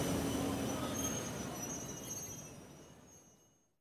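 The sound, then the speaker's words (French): Train pulling into a station platform, a steady rumble of rolling wheels with high metallic squealing that gradually fades away to silence. “Le train 8664 à destination de Rambouillet va entrer en gare quai F.”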